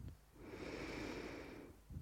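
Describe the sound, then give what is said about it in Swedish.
One long, slow breath in through the nose during a guided breathing exercise, a soft, steady airy rush heard alone that lasts over a second before fading out. “Andas in.”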